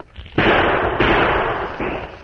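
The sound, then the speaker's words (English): Gunshots fired toward boulders ahead in the woods: three loud, sharp bangs spaced about half a second apart, each followed by a sustained roar of noise that fades slowly. “Fire a shot or two in that direction to cover me”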